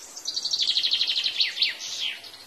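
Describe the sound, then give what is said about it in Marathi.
Birds call in a rapid, high-pitched trill of many quick chirps, followed by a few sweeping notes that drop in pitch, fairly quiet with no voices. “हे हे हे पक्षी दिसताय ना रे तुला?”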